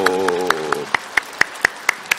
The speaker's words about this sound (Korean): 우리 옆 사람 같이 인사하실 때 먼저 힘차게 박수 쳐주시고